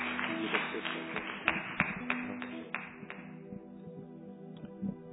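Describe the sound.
A church audience claps in welcome for a visiting pastor: scattered, uneven hand claps with a few sharper peaks, continuing over a sustained tonal background and thinning out toward the end.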